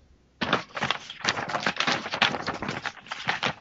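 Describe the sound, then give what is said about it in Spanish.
High-quality papers being moved and shuffled: after a brief quiet moment, many crisp rustling and slapping bursts follow one another densely for about three seconds. “Eso suena a papeles de alta calidad. Eso no suena a cualquier bond pendejo. Eso suena así a opalinas y cosas así.”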